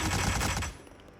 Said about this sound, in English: Hey, that's live ammo.